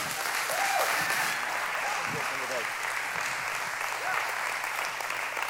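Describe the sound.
Conference audience at a Grace Life gathering applauding to welcome the keynote speaker, with steady, dense clapping throughout and a few voices calling out briefly over it.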